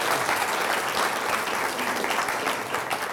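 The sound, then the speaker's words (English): An audience applauds to welcome a speaker, a dense, steady wash of clapping hands that stays loud and even throughout. “So thank you, my brother, and let's give him a round hand.”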